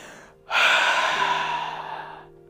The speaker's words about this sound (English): taking a deep breath